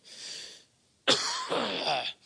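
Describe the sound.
Coughing from a person with something stuck in the throat: two harsh bursts, the first softer and shorter, the second louder and longer after a brief pause.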